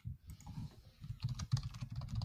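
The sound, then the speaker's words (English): Typing on a computer keyboard, heard as a faint, steady stream of quick, soft key clicks with no pauses. “I typed in famous people from Austin”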